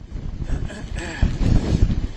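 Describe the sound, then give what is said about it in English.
Strong storm wind pummels the microphone on Pensacola Beach, Florida, during a hurricane, giving a loud, gusty, rumbling roar that grows heavier in the second half. “the wind is really pummeling us right now”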